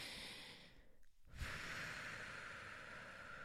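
A slow, deep breath from a person, heard as long airy rushing breath noise. A short quiet gap falls about a third of the way in, followed by a steady, fairly loud stretch of breathing with no talk.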